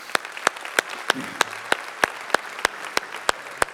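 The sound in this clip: Audience applause for first-time guests at a church service. Sharp, regular claps sound in a steady rhythm about three times a second over a softer bed of crowd clapping.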